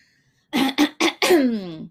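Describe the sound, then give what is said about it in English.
A person clears a scratchy throat in four harsh bursts after a silent start. The first three are short and the last is longer, trailing into a falling, voiced rasp. “a frog in my throat or something.”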